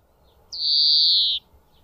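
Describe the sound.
A single drawn-out, high whistled note from a European greenfinch, falling slightly in pitch and lasting just under a second, stands out clearly against a quiet background.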